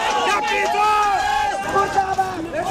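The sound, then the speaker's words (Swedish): A crowd of students and young people protesting corruption and the government's shutdown of social media platforms in Kathmandu, Nepal, September 2025: many voices shout and chant together in loud, overlapping, sustained bursts. “Här hör vi ljud från Nepals huvudstad Kathmandu, september 2025. Studenter och unga som protesterar mot korruption och regeringens nedstängning av sociala medieplattformar.”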